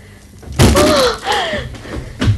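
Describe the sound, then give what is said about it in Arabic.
A door being swung shut: a loud thump at the start, a creaking, gliding squeal through the middle, and another softer knock at the end. “أغلق الباب.”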